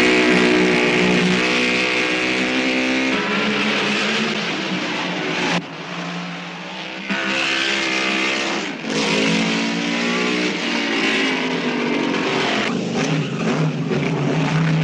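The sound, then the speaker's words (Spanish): A Lancia-derived Ferrari eight-cylinder racing car, of the kind raced to a 1956 world title, drives past with a loud continuous engine roar. Its pitch shifts as the revs change, with two brief dips in the middle. “Questa è la Ferrari 2005 8 cilindri AV derivato dalla Lancia. Con questa macchina Fangio conquistò il suo quarto campionato mondiale nel 1956.”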